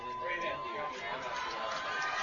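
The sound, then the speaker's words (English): A stadium crowd at a football game roaring louder on a fourth-down play at midfield with just over five minutes left, a dense, sustained wall of cheering noise that stays loud throughout. “Torkelson wants the crowd to get into it, and they do.”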